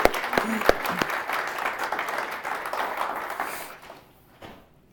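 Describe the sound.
Applause from a gathering welcoming a guest just after a prayer. Many hands clap steadily for about four seconds, with a few sharper claps near the start, then the clapping fades out.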